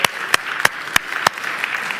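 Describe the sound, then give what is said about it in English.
Audience applause fills the room with dense clapping, punctuated by five sharp, louder claps that fall on a steady beat. “Some of you are clapping for yourselves right now.”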